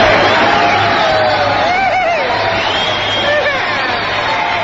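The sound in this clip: A studio audience cheers and whoops at a show, a loud, continuous roar that fills the whole clip, with a few high whoops rising above it.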